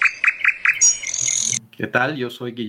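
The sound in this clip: Bird song with varied tones and melodies: a few quick repeated chirps, then a high sustained whistle, then lower warbling harmonic phrases, all clear and fairly loud.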